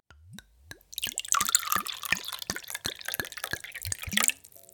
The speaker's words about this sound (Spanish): Llegó el momento de servir el vino. Serví aproximadamente un tercio de la copa.